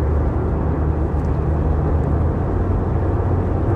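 A car driving on a highway gives a loud, steady roar of road and engine noise that holds evenly throughout, with no voices and no distinct events.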